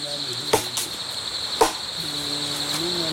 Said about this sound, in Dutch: De groepsleider zit nu met een gigantisch mes in een stuk hout te slaan om ons zitje te verstevigen, geloof ik.